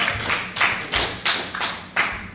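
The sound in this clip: Church audience clapping in praise during a sermon, a run of sharp, fairly evenly spaced claps in a steady rhythm, with no talk over it.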